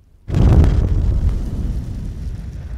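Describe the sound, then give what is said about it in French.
A loud explosion goes off in the night as a petrol pump is set on fire. One sudden, heavy blast is followed by a long rumbling decay that slowly fades. “17 juin, forte explosion au milieu de la nuit.”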